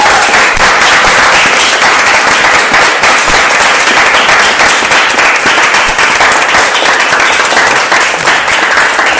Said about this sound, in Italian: un applauso a tutti